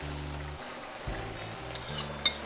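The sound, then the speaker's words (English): Mushrooms frying in a covered pan over medium-high heat give off a steady, even sizzle with a low background hum and one short, sharp click near the end. “And my mushrooms, you have to cook it on medium high, the whole thing with the cover on, so that the mushrooms will give off their juice, their liquid.”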